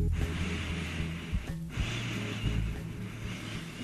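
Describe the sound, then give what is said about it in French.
Strong sniffing as a person smells an alcohol sample held under their nose during a smell test in the dark. Two long, breathy, noisy inhalations are split by a short break. “Je vais juste vous faire tester votre odorat, vous faire sentir quelque chose que je vais placer sous votre nez. On va se respirer fort.”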